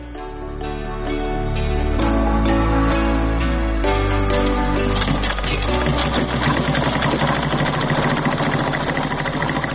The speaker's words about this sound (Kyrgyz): бош убактысында тикмечилик менен да алектенет.